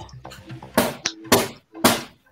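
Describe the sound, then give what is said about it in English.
Knocking on a box that has just been shown empty: three sharp, loud raps spaced about half a second apart, with voices talking around them. “She's knocking on the box.”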